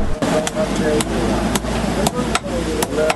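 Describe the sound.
A hammer strikes cold iron in a blacksmith's shop, several sharp metallic blows at an uneven pace, each ringing out clearly over a steady low background.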